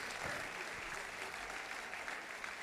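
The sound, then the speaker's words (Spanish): Faint audience applause for a band, a soft, continuous patter of many hands clapping at a low, even level throughout. “Bueno, un aplauso para Clarence Becker Band.”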